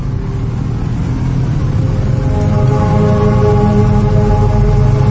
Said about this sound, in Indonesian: Aku pun berangkat ke Garut menggunakan kendaraanku, sepeda motor.